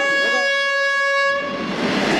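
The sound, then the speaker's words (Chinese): A slow passenger train on the Chengdu–Kunming line, running from Puxiong to Panzhihua, sounds a loud, sustained horn at a station. The horn breaks off into a rolling, rumbling noise. “清晨七点，再过20分钟，成昆线上从普雄开往攀枝花的5633次列车就要发车了。”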